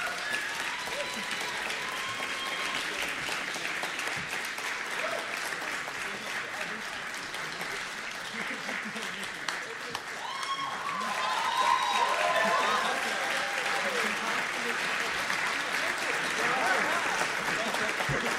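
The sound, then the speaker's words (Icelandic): Sustained applause from an audience for a band, a dense wash of clapping that continues throughout and grows louder around the midpoint, with some crowd noise mixed in. “Klapp, gefa þeim gott og mikið klapp og stilli ykkur svo upp í skemmtilega mynd.”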